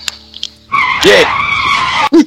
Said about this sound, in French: dérapage, excusez-moi, c'était le mauvais jingle.